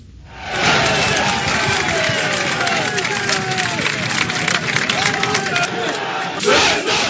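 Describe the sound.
Several thousand football fans chant loudly in support of their team at a training session on an auxiliary pitch by the stadium. The massed voices are sustained and roaring, with rising and falling chant lines.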